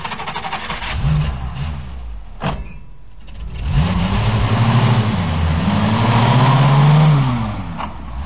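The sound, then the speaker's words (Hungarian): A car engine revs and accelerates. A sharp knock comes first, then a loud growl rises with a wavering pitch that climbs and sags over several seconds. No one talks. “Gyerünk, indíts. Célozd be azt az elágazást. Gázt!”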